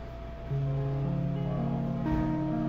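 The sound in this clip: A plucked arpeggio across the seven regular strings of a harp guitar. Several notes enter one after another, climbing in pitch, and each one keeps ringing so they build into a sustained chord.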